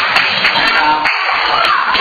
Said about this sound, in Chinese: 哦，很棒，拍手。